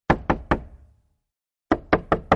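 Knocking on a room door: three firm, evenly spaced knocks, a pause of about a second, then four more in a steady rhythm, each a sharp, hollow rap.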